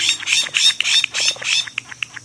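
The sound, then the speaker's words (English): Harsh, raspy squawks of a Florida scrub jay ring out in a rapid series of loud calls, broken up by a few short, high chirps. “Florida scrub jays, beautiful, curious, and easily approached, are Florida's only truly native bird.”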